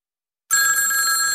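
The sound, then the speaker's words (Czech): A telephone begins ringing abruptly after a short silence, a bright, steady electronic ring that continues unbroken to the end, alone with no talk. “Škola volá, ale my to nezvedáme.”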